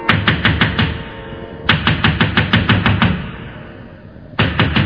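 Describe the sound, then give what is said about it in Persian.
Hurried knocking on a door in a Persian folk tale, an old woman pounding in three rapid volleys of loud, quick raps separated by short pauses. “پیر زنه دوید و دوید تا به خونه دختر رسید. حوصله‌اش اومد به سر، با عجله کوبید به در.”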